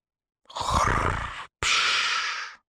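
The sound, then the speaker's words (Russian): A dragon snoring: two long, rough, breathy snores separated by a brief pause, loud and rumbling, with no voices. “Храпел Ветрогон.”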